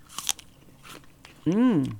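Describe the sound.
A crisp bite into a McIntosh apple makes a sharp crunch near the start, followed by a few faint crackles and then a short voiced murmur.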